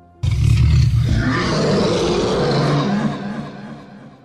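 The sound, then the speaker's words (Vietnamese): A tiger roar and dragon chant sound effect: a loud, rough roar bursts in abruptly and holds steady for about three seconds before slowly fading out. “trong mơ hồ có một hổ gầm long ngâm dẫn tới thiên địa xảy ra biến đổi dị thường”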